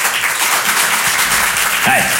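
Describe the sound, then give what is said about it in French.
Applause from a comedy-show audience responding to the comedian's question about chaperoning school trips: a steady, dense burst of clapping throughout, with a short voice rising near the end. “Qui, par applaudissement, a déjà accompagné une sortie scolaire ce soir?”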